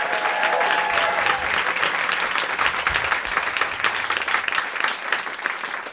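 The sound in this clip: Studio audience claps after a live band performance, a full, even wash of applause lasting the whole stretch at a steady level.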